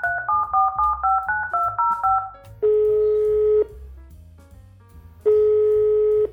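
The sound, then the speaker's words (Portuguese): A telephone dials to call someone: a rapid run of many short keypad beeps at shifting pitches, followed by two long, steady ringing tones separated by a pause. “O tempo dele é muito limitado, então a gente vai ligar para ele agora e vai conversar um pouquinho aí com ele.”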